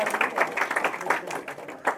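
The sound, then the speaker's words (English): Scattered clapping from a small church meeting group thanking a member for vestry service, uneven claps that swell and thin out over about two seconds. “So can we get a round of applause for Julia?”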